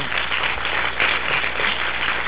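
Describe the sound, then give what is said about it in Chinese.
Warm audience applause thanking an academician after a lecture. The clapping is dense and continuous, with a dull, muffled tone and an even level throughout. “我们最后是不是以热烈的掌声，我们来谢谢李院士。”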